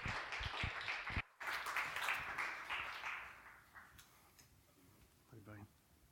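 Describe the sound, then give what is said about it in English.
A church audience applauds to welcome a preacher, a faint wash of clapping that holds for a few seconds and then fades, with a voice heard toward the end. “So let's put our hands together and give Rick Ryder a Transit Church welcome.”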